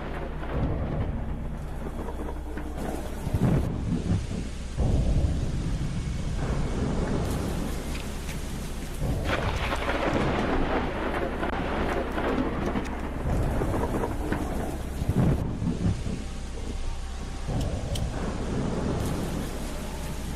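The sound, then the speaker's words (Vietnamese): A night thunderstorm with heavy rain, a constant loud hiss and patter of downpour broken by repeated deep rumbles and cracks of thunder, with no voices. “Trên bầu trời, mây đen bắt đầu vần vũ, rồi mưa đổ xuống. Cũng không ai biết ngoài kia sự thể nó ra làm sao, chỉ biết rằng là đêm nay mưa gió sấm sét kinh khủng lắm.”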